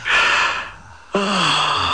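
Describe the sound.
A sharp breath drawn in during a guided relaxation exercise: a loud, rushing inhale, then a short hush, then a voiced, breathy sound.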